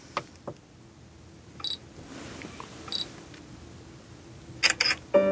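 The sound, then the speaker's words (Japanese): Camera shutter clicks as a bankbook is photographed with a passbook-reading device: a few short, crisp clicks over a faint steady background, ending with a tighter cluster of sharper clicks. “今のカシャってこれで写真撮ったんです、ねはい、で通帳の写真を撮って”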